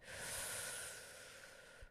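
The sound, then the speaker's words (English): A single long, deep breath drawn in, a steady breathy hiss that swells early and then eases off over about two seconds, heard alone with no talk. “Take a deep breath in and a big breath out. And a big breath in”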